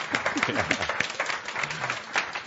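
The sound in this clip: Audience applause breaks out for a guest: a dense, steady patter of many hands clapping that fills the whole clip, with voices mixed in underneath.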